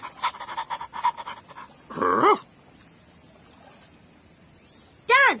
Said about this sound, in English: Good dog.